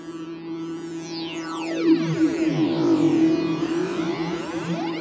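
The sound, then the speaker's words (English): A synthesizer patch built from a modified Antala preset on the Albino 3 synth, played dry with no effects. A sustained low drone carries bright sweeping glides that rise and fall above it, swelling slightly louder midway. “The opening sound of the song is an Albino 3 sound from Rob Papen. I did a slight modification of the Antala sound. There are no effects on this channel strip,”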